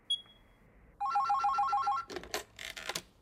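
A telephone rings once: a loud, rapid warbling electronic ring of about a second, repeating in even pulses. It follows faint quiet and is followed by a few sharp knocks and clatters.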